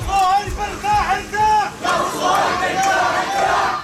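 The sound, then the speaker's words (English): Crowd of mourners in a funeral procession moving through a Gaza city street, loud voices chanting and crying out together in repeated rising and falling phrases over a constant dense crowd murmur. “That's the sound of a funeral procession moving through Gaza City today.”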